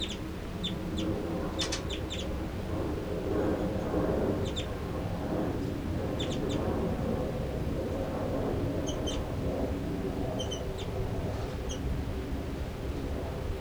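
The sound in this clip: Birds give chittering and short call notes: many brief, high, faint chirps scattered in small clusters over a steady, loud background hiss.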